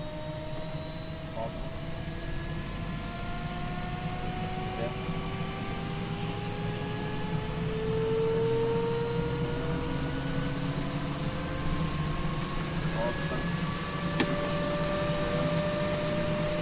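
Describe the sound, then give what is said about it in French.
A military aircraft takes off on a flight out to a French aircraft carrier. A continuous engine roar carries several whining tones that climb slowly and steadily in pitch, staying at a moderate, even level with a slight swell midway. “Aujourd'hui, troisième épisode, on décolle pour rejoindre le Charles de Gaulle.”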